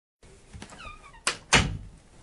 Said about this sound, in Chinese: 门重新被关上了